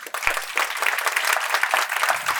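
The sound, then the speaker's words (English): An audience breaks into applause as the CEO of a fintech startup is welcomed to the stage at a business event, a brisk, steady clatter of clapping at moderate volume. “So if you can put your hands together as we welcome to the stage Catherine McConnell”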